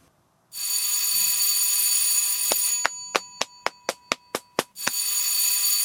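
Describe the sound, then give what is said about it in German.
Electric bell ringing as the third bell signal in a theatre: a long continuous loud ring, then several short rapid bursts, then steady ringing again to the end. “Das war das dritte Klingelzeichen.”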